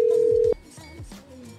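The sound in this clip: A single steady telephone tone on an outgoing call holds for about half a second, then cuts off abruptly into quieter, muffled sound.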